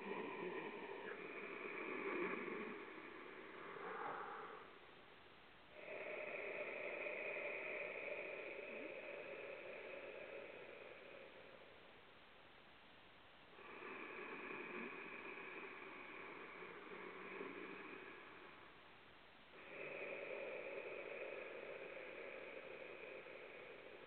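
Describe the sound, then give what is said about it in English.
Ocean breath made by breathing through a slightly restricted throat: slow, soft, hissing breaths with a faint resonant hum, rising and falling in long cycles of several seconds each, quiet and alone. “For ocean breath, you're actually going to make an ocean sound by restricting your throat a little bit. And it sounds something like this.”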